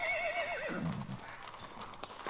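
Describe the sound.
A ridden horse gives a single wavering neigh that slides downward in pitch over about a second, then fades into faint rustling and a few soft scattered knocks.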